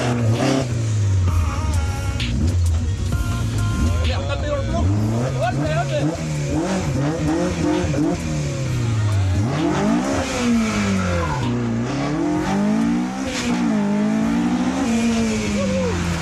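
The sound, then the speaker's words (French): A McLaren sports car accelerates hard while slaloming between cones. Its loud, continuous engine note repeatedly climbs and drops as it revs through the turns. “l'idée c'est de slalomer entre les cônes et de revenir. Ouais easy quoi. Voilà, moi je t'ai laissé un peu de place hein, parce que la McLaren pour braquer.”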